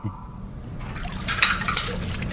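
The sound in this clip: Dishes being washed in a restaurant: water splashes alongside clinking plates and cutlery in a continuous, busy clatter that grows slightly louder and brighter partway through.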